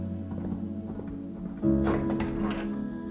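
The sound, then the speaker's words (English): Clip-clop hoofbeats from a rider heading off with two horses on a dirt path, soft and muffled at first, then louder and denser for the second half over a low steady hum. “Behind her, Dario rides off with both horses.”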